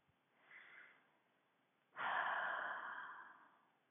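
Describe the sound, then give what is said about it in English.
A deep breath taken during a guided meditation exercise: a soft, short intake, a pause, then a much louder, long airy breath that slowly fades, with no talking. “Next, take a deep breath.”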